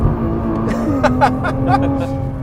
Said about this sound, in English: we go up over this crest and give it a bit of throttle. There we go, we can leave some rubber on the road.